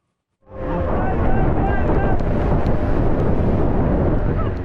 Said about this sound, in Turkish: Yağmur yağıyor, rüzgar saatte onlarca kilometre hızla esiyor. İstanbul Boğazı ise dalgalarla kabarıyor.